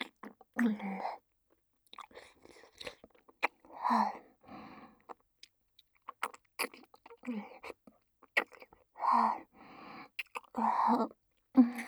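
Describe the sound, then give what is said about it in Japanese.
Soft, wet mouth sounds of someone eating cold ice cream come in short, quiet bursts, alternating with low whispered speech and brief silent gaps. “ほら、アイス冷たくて重くて美味しいよ。”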